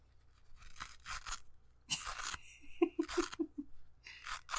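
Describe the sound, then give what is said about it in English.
Velcro on a brace strap rips open and is pressed shut again during adjustment: a few bursts of crackly, rasping tearing, some short and some drawn out, with quiet pauses between them. “No, I'm fixing it. It's too tight. I accidentally tightened it too many. Everyone enjoy some Velcro ASMR.”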